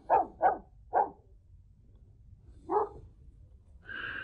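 Dogs barking at an estate: four short, fairly faint barks, three in quick succession and one after a pause, followed by a brief higher, steadier sound at the end.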